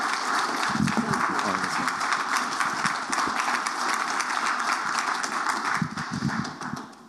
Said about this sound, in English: Why don't you give her a hand?